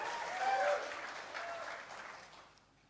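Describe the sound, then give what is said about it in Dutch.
An audience claps for a man on stage during a talk. The applause swells briefly and then fades away over about three seconds. “Everyone give Hans a hand. Geef hem al Hans een applaus.”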